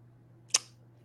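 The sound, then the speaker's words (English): A single sharp click made with the mouth, one crisp isolated tick standing alone over a low, steady hum. “Yeah, I went, I made a click noise.”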